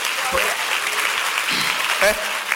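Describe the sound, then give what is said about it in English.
An audience at a prayer service claps in a dense, continuous patter that runs throughout, with a voice speaking over the clapping. “simple prayer like that clap for Jesus”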